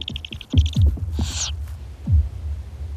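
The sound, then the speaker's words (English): Owl calls at a garden nesting box where an adult brings a mouse to owlets: repeated high calls, then a brief harsh hissing screech, with low thumps underneath. “The adult swoops down, catches a mouse and flies back to the nesting box. The larger owlet is always first in the queue.”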